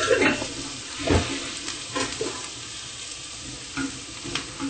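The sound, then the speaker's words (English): Spices stirring and lightly frying in a pan, giving a steady sizzle broken by a few scraping stir strokes. “Now we're going to add the spices and lightly fry it.”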